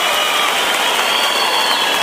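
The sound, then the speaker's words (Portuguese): Steady audience applause at a sertanejo music show: a dense, continuous clatter of many clapping hands that holds at an even level throughout, with no voices. “Pode aplaudir a nossa família, realmente é uma geração de cantador.”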